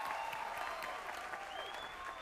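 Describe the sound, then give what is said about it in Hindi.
Audience applause welcomes performers to a dance competition show. A fairly quiet, even wash of clapping runs throughout, and a thin sustained tone sits above it. “चलिए एक बार जोरदार तालियां हो जाए, आपका grand welcome है dance दीवाने के इस परिवार में।”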